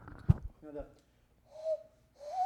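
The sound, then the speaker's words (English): A person imitates a loon's call, producing two wavering, hooting whistle-like notes, each slightly rising, after a short burst of breathy voice. The notes are fairly faint, with silence between them. “quiet enough that the loons kick in. Oh, yeah. That's the Minnesota state bird, obviously, so I know how to do the,”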